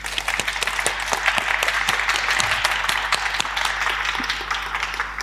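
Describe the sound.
Audience applause welcomes a guest at a live talk event, a steady crowd patter with many sharp individual claps standing out throughout.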